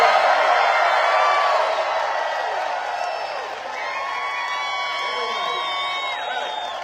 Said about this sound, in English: By the way, we have a lovely audience here in the theater. Say hi, everybody, here at Planet Hollywood.